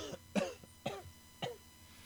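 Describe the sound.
A man coughs three times in short, harsh bursts spaced about half a second apart, with a couple of softer catches in between, all quiet and with no talking.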